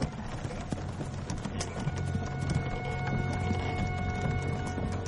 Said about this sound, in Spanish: Dos hombres conducen una carreta tirada por bueyes. María va entre el mobiliario que transporta la carreta.